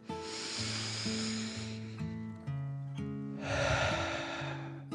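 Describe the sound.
A deep breath drawn in and then let out, heard as two long breathy whooshes, the second louder, over soft, steady sustained musical tones.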